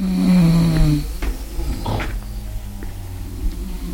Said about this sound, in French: Les ronflements de mes voisines chinoises dansent le seuil de ma tolérance.